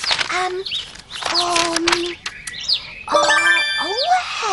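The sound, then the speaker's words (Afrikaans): A small bird chirps at a garden birdbath, giving many quick, bright chirps and high sweeping whistles mixed with light metallic pinging tones. “Kyk, daar het nou net 'n voeltjie op die rand van die bak gaan sit. Oude drink hy water”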